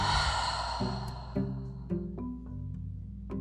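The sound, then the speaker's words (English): A slow, deep breath, airy and sigh-like, is loudest at the start and soon fades, while soft sustained musical notes continue behind it, changing pitch every so often. “Maybe let's do that together right now. So slowly inhale and then exhale.”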